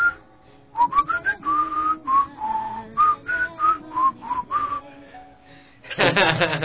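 A person whistles a song as a melody of many clear, sustained notes that step up and down in pitch, with short gaps between them, ending in a brief noisy burst.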